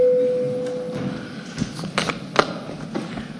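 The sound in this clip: A parliament chamber's voting bell signal sounds as a steady electronic tone held at one pitch for about a second, then gives way to low room rustle and scattered soft clicks.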